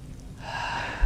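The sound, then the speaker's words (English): One deep breath drawn in during a breathing exercise. It is a soft, airy hiss that swells in loudness and holds briefly, faint and alone. “including everyone take a really deep breath right now,”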